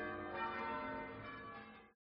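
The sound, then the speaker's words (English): Church bell ringing at midnight: a single sustained, resonant toll rich in harmonic overtones, holding steady and fading slightly before cutting off abruptly. “Y en Madrid, Miguel and his hermana danced in the street at midnight as the church bells rang.”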